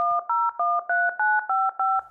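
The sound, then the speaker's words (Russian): Touch-tone telephone keypad dialing a number to call a relative in London: a quick, even series of short two-tone beeps, each clear, loud and steady in pitch, with brief gaps between them and no talk. “позвоним моему дальнему родственнику Мистеру Файвоклоку”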